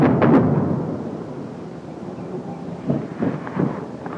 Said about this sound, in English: Look out, Jesus! That's too close. Airstrike.